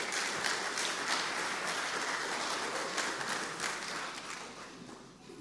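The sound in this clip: Audience applause as a church audience welcomes a speaker to the front. Many hands clap in a dense, steady patter that stays even before thinning and fading near the end.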